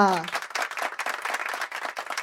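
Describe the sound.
Audience applause greets a contestant taken to the stage, dense clapping from a crowd that starts right after a brief tail of a speaking voice and continues loud and uneven to the end.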